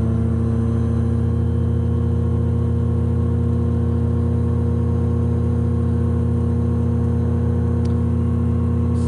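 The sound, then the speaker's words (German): Motor glider engine at full throttle, a steady, loud droning hum with a constant pitch and no breaks. “so und Vollgas. der Motor ist nicht dafür gedacht, das Flugzeug schnell nach vorne zu bewegen”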